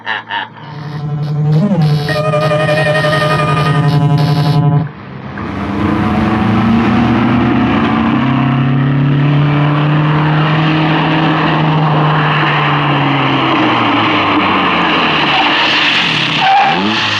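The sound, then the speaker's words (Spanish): A sports car brakes sharply and spectacularly. A loud, high engine whine gives way to a long, sustained screech of skidding tires that holds steady before easing off near the end. “La joven y bella espía frena espectacularmente, pero Calimán, no ha esperado abrir la portezuela, salta por encima del auto deportivo.”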